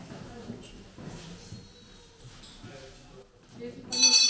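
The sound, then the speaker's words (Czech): A hand bell rings at the end of a school lesson: a loud, bright metallic burst in the last half second, following a stretch of people talking. “zazvonil zvonec a vyučování je konec”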